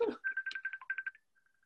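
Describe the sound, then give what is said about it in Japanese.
Facebook Messenger incoming call ringtone: a rapid string of short, steady, high-pitched beeps after a brief voice at the start, then a few fainter beeps trailing off. “電話が引っかかってきちゃってる？ 電話じゃなくて、これメッセンジャーなんだよ。”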